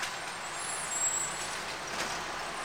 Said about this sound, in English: Here comes the color garbage truck.